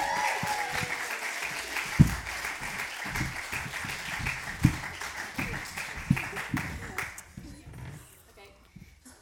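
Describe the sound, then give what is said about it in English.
Audience applause at a school poetry festival showcase: steady, dense clapping with a few sharper, louder claps standing out, dying away toward the end. “Let's make some noise for Ben, Louise, Akil, and Louie.”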